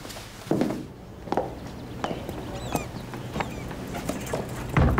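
Footsteps of people going downstairs: a few uneven, soft thuds and scuffs over a steady low background hum.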